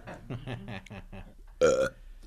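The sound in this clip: A single loud, croaky burp from a person bursts out after a stretch of talk, brief and rough with a gurgling edge.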